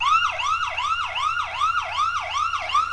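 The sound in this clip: A police car siren sounds in a loud, fast yelp: a high tone sweeps up and drops again in quick repeating cycles, steady throughout and heard alone.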